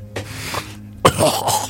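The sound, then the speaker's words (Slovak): People cough in a room: a few hoarse coughing bursts, the later one sharper and louder, with no talk over them. “Čo dnes všetci kašlete, to je hrozné.”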